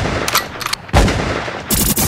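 Gunshots ring out in a hip-hop track: a few loud, sharp bursts of gunfire separated by short gaps, each with a brief noisy tail.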